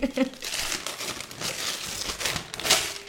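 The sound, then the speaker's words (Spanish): Gift wrapping paper crinkling and tearing as a present is unwrapped, with irregular rustling bursts, sharper rips toward the end and a voice heard beneath. “Hacemos ASMR un poco en el papel. ASMR de abrir el papel.”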